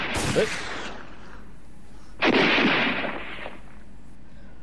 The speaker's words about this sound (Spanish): Damos un par de tiros al aire.